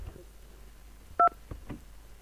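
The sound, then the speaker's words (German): A telephone touch-tone beep sounds as a listener calls in to a radio program, one brief dual-pitched tone over faint low noise. “Da ruft jetzt jemand an, warte mal kurz.”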